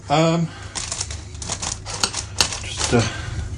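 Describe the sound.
A knife cuts a muffin in a few short clicks and scrapes, after a brief voiced sound at the start.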